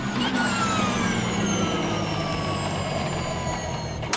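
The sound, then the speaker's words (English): A Formula E electric race car gives off a loud, high electric whine layered over broad rushing noise, its tones sliding slowly downward in pitch across four seconds. “This episode of Gareth Jones on Speed is brought to you by the sound of Formula E.”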